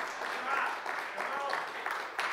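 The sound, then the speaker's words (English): Applause rises from a church audience during a worship service, a dense, steady patter of hands lasting a couple of seconds, with a voice speaking over it. “I don't need your applause, but He does. He deserves it.”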